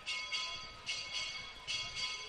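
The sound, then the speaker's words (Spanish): Campanile bells ring during a romería for the Virgen de la Bella at the recinto Romero, faint repeated strikes with sustained metallic tones lingering between them. “Suena de fondo el campanil”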